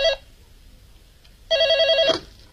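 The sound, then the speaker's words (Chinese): A telephone rings as a hotel's general manager receives a call: a brief electronic ring burst, then a longer warbling trill of rapid repeated pulses, fairly loud over quiet background. “没想到第二天总经理朱永昌又接到了那个神秘的电话。”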